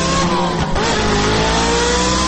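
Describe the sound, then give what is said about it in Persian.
A Paykan car revving hard while skidding in the street: a loud, continuous engine roar whose pitch climbs as the throttle opens, with no voices. “خبرنگار واحد غیر مرکزی خبر در خیابان در حال ویراج دادن با پیکان عزیزش. آخ جون چه دودی هم میکنه.”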